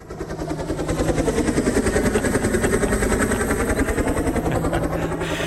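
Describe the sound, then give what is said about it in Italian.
Drones flying give off a buzzing, rotor-like whir with fast, even pulses. It swells in at the start and then holds a level, steady drone. “Qualcuno direbbe l'elicottero della fuga, no, so, qualcuno direbbe che sono gli elicotteri del Fondo Monetario Internazionale, in realtà sono droni.”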